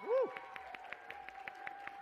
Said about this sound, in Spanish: Un aplauso para el IEMS Iztapalapa 5.